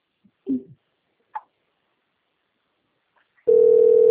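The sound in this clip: A telephone dial tone sounds while a call is being placed: a few faint, brief clicks and knocks in near-silence, then a loud, steady, mid-pitched tone switches on abruptly and holds without a break.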